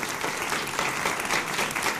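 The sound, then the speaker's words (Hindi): Studio audience applause greets guests joining a televised political panel debate: dense, steady clapping from many hands fills the whole two seconds without a break. “थोड़ा तालियां बजा लीजिए।”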